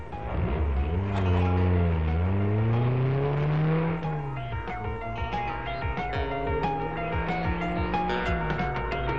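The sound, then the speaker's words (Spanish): A car engine revs hard during a chase scene in a 1988 action film, its loud whine climbing and dipping in pitch, then settling into a sustained roar with rapid ticking and rattling. “Fatty, sigue ese coche!”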